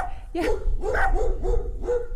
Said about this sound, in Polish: Piesek mnie nie ugryzie?